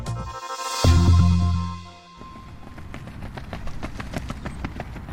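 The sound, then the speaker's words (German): Running footsteps of a steeplechase runner on her home training track in Frankfurt-Niederrad: many quick, evenly spaced, crisp foot strikes at a steady moderate level, following a loud low sustained tone that fills the opening two seconds. “Gesa läuft. Gesa Felicitas Krause läuft auf ihrer Heimat-Trainingsbahn in Frankfurt-Niederrad.”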